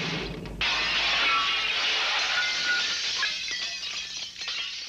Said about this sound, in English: Well, the witch smashes straight into Small and Tender's window